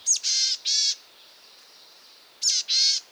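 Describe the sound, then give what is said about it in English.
Boreal chickadee calling in dense spruce forest in Canada: two husky, buzzy call phrases separated by a pause. Each opens with a short, high note followed by drawn-out nasal notes, over a faint steady background. “Or listen in the dense spruce forests of Canada for the call of the boreal chickadee.”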